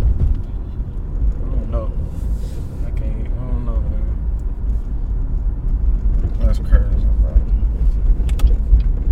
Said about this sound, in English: Right now, guys, we're currently driving, trying to be safe and do this podcast at the same time.